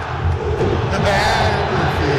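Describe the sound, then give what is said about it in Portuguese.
Football crowd chanting in the Mineirão stadium during a Cruzeiro match, a dense, loud roar of many voices that keeps a steady pulsing rhythm for the whole stretch without a break. “Trocou, olha a torcida convidando o Jardim a tomar suco de caju.”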